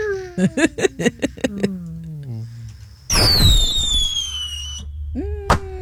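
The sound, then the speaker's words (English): A bottle rocket firework: a quick run of sharp pulses and a long whistle that falls in pitch, then a loud hissing burst with high, shrill whistle tones that drop away. “Oh, that was a bottle rocket.”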